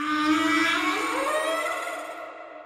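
A whale calls underwater in a long tonal moan rich in overtones. Its pitch glides upward partway through before the sound slowly fades.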